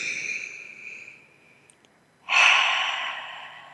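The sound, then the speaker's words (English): A deep breath drawn in and let out during a guided relaxation exercise: a soft, airy inhalation fades into a quiet pause, then a louder, longer exhalation rushes out and slowly trails off. “close your eyes, taking a deep breath in.”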